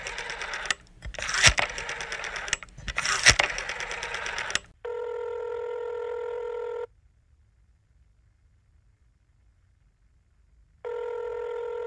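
Telephone ringing for a call: two long, steady, buzzing ring tones separated by several seconds of silence, preceded by a few seconds of busy, clattering mechanical noise.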